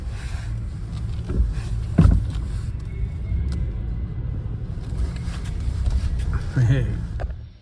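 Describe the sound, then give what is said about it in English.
The low engine rumble of a car making a tight turn and driving slowly into a home garage under a low beam to park. The drone stays steady, with a couple of brief bumps and knocks. “So I've just come into my garage to park, and as you can see, there's a very low beam that I have to drive under.”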